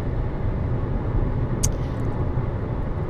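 A car drives on a freeway at night, giving a steady, low road rumble throughout with one brief, high click partway through.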